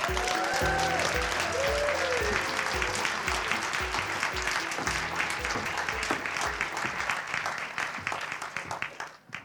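An audience applauds to welcome performers onto the stage at the Going West event, a steady wash of many hands clapping that holds even and loud before thinning and fading out at the end.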